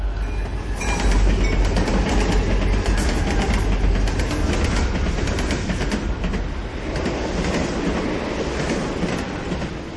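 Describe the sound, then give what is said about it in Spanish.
A train runs along the rails, a loud, steady rumble with rattling wheel noise that holds throughout. “Ya lo ha oído, es ese, el tren para la felicidad, subamos.”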